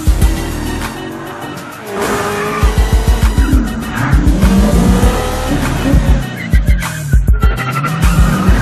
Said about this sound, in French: Oui bah freine, parce que là j'ai pas envie de la rater la sortie.